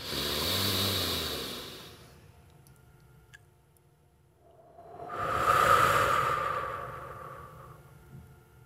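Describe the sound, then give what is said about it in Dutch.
Slow, airy breathing during a relaxation breathing exercise: a soft breath fades out, and after a quiet pause a longer, louder exhalation swells and gradually tapers off over several seconds. “En nog eentje en iets langer uitademen.”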